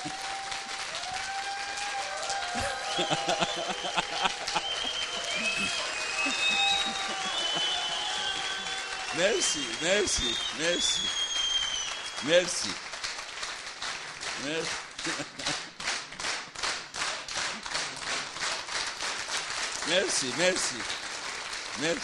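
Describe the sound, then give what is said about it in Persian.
An audience applauds in a steady wash of clapping that lasts about twenty seconds, with a voice speaking over it. “به افتخارش کف بزنید.”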